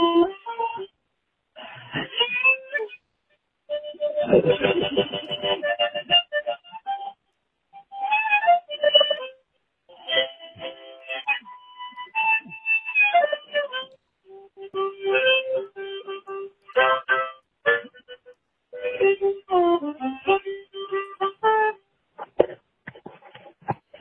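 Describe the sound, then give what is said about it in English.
Harmonica played over a phone line sounds thin and band-limited: many short reedy phrases of notes and chords come in bursts separated by brief silences. “You need to bring the harmonica closer to the phone. You should get a line in on that phone or something.”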